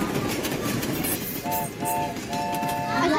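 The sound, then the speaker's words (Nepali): A train starts off and chugs along with a loud, dense rumbling clatter throughout. A few short tonal horn-like notes sound over it partway through. “Brake छोड़िए और train चलाइए। छुक छुक करती train KGS को लेकर आगे बढ़ रही है जनाब”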